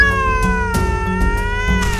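A fluffy cat meowing in a long, drawn-out, tonal cry that holds steady and loud throughout, with no talk over it.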